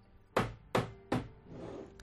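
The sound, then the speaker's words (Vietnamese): Knocking on a door: three sharp, evenly spaced knocks, each with a quick decay, followed by a softer, noisy tail. “Trên cửa truyền đến âm thanh đánh gãy tiếng la hét của Hứa Luật.”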